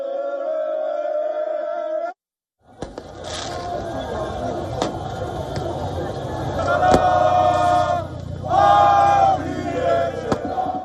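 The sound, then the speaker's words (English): PSG football supporters celebrate on the Champs-Élysées in Paris. A loud, dense crowd roar follows a brief voice and a short pause, with two strong bursts of shouting and chanting rising above the din. “Celebrations also erupted in France as PSG supporters danced and cheered near Paris's famed Eiffel Tower on the Champs-Élysées Avenue.”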